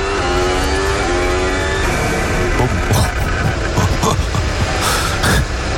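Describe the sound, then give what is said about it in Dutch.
A race car engine revs hard with a buzzing, harmonic drone that fades out after a couple of seconds. The gearbox bangs through its shifts with sharp, loud cracks that break in later. “Ja, je hoeft je geen engineer voor te zijn om te horen dat hier iets goed gaat. Waarschijnlijk zo te horen is dat gewoon de versnellingsbak die eronder uitknalt.”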